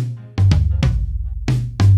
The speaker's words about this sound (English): The toms are different sizes, and you hear those mostly when drummers play fills,